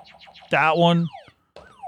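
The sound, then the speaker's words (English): A game show buzzer effect sounds as a loud, buzzy harmonic tone of about half a second that sags slightly in pitch. Shorter electronic sweeps gliding downward come before and after it. “So the buzzer goes.”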